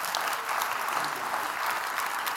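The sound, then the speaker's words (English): A church audience applauds the helpers with a steady, dense clapping that holds evenly from start to finish. “So I actually needed 7 helpers today. And so would you welcome these helpers? Give it up for these helpers today.”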